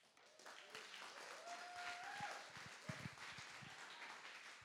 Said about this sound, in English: Mark is a great friend and mentor to Pastor David and Cindy, and we're pleased to have him here with us. Let's give him a warm welcome.